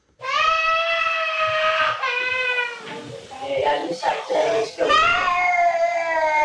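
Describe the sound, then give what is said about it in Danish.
A young girl cries in a nursery after pinching her finger: loud, sustained high wailing that breaks up briefly in the middle, then resumes strongly to the end. “Vi har også et klip her fra TV2, hvor de er på besøg i en vuggestue, hvor en pige får fingeren i klemme.”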